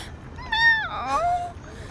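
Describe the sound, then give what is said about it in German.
A person imitating a cat's meow with the voice: one drawn-out, high, nasal 'miau' with a wavering pitch that dips in the middle, fairly loud over a quiet background. “Miau.”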